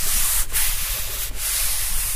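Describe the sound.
A very dry piece of tanned leather is rubbed, giving a rough, steady, hissing scrape with two sharper, brief strokes standing out. The sound is fairly loud and has no voices.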